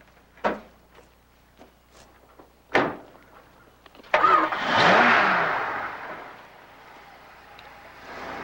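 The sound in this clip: A couple of sharp knocks, then a pickup truck engine starts with a sudden roar, revs briefly and fades as the truck drives away, leaving a low rumble.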